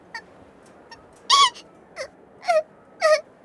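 A young girl cries and sobs in a string of short, wailing gasps, each sliding down in pitch. Faint whimpers come first, then several louder sobs at irregular intervals.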